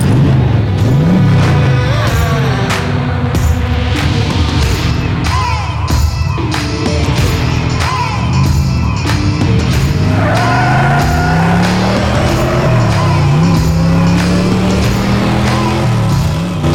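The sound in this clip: A car engine revs hard several times, its roaring tone sweeping up and down in pitch, loud and continuous over a busy crowd-like background.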